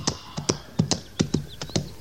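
A horse's hooves strike a hard surface in many sharp, hollow clops that fall in a loose, paired rhythm, moderately loud and distinct against quiet background noise.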